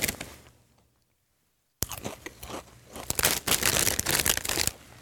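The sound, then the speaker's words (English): Loud, crisp crunching of chili-flavoured Lay's Game Day potato chips being chewed, many irregular sharp bites and chews after a brief quiet pause. “Again, Lay's Game Day chili flavored. That's it, just stops there. I guess it's potato chips.”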